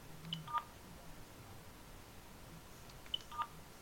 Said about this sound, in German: Wenn Sie so mit Ihrer Nachricht zufrieden sind, drücken Sie die Raute-Taste.